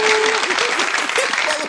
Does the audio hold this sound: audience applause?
yes